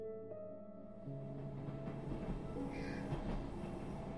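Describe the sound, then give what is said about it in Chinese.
A train slowly pulling out: faint sustained tonal hums shift in steps while a low rumble builds and continues underneath. “列车缓缓开出，穿进羊毛般厚厚的迷雾”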